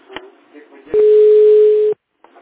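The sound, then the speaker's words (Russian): A telephone ringback tone heard while placing a call: one steady, even tone lasting about a second, cut off abruptly, with faint voice sounds before and after it. “Нет, я звоню Грише.”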